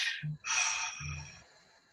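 A deep breath drawn in through the nose during a guided breathing exercise: a soft, airy rush lasting about a second, set between faint low thumps.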